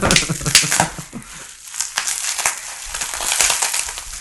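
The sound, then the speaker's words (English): Bubble-wrapped packages are torn open with continuous crinkling, crackling plastic and papery tearing, busy and fairly loud throughout, with scattered sharper snaps. “There's a bubble wrapped package and there's a second one. So we're gonna tear into these. Two bubble wrapped packages.”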